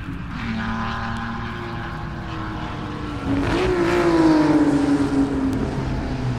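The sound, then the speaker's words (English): Race car engines roar at the 1958 Sebring Grand Prix with a steady droning motor note. Partway through it grows louder, and the engine pitch rises and then falls back while the roar continues. “this is the Sports Cars and Stereo LP on Riverside. Recorded in 1958 at the Sebring Grand Prix.”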